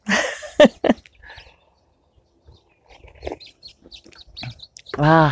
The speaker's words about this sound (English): You can probably hear that I'm sitting outside here on the east side of the house where it is lovely.